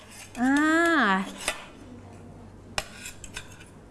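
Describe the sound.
Spoons clink against dishes as children handle their cutlery at a meal, a few light, separate knocks that follow a short voice near the start.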